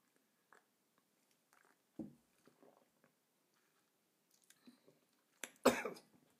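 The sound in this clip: Coughing from someone who gulped a hot, sweet mulled-wine-like drink too fast, heard as faint throat sounds and then a sharp, louder burst of a few coughs near the end, with no talking.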